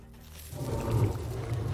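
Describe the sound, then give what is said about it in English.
A deep, growling tiger roar swells up in a video game as a character takes on a tiger's wild shape. The low rumble builds after a quiet start and then holds steady and loud. “The first wild shape of the tiger. Yep, there we go. I was waiting the entire time for this.”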